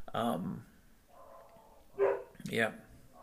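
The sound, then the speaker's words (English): Dogs barking: a few short, sharp barks with gaps between them, fairly faint. “And if you can hear that, that's the dogs barking.”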